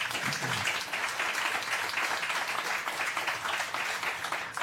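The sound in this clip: Applause from an audience for a newly promoted two-star naval commander of a naval training center, a dense, steady clatter of clapping that holds at an even level for the full few seconds without a break.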